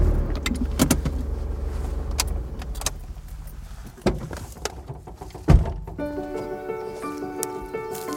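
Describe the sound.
A car rumbles along a garden drive among rhododendrons at Cragside as it pulls over and stops. A low steady engine note carries a few knocks and a louder thunk near the end, then fades under brighter tones.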